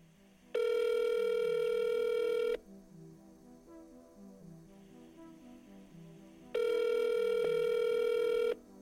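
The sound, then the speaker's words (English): A telephone rings, the call going unanswered: two long, steady electronic ring tones about four seconds apart, each lasting roughly two seconds, with a quieter, patterned background sound continuing between them. “I decide to give that number one last call. Predictably, it continues to ring.”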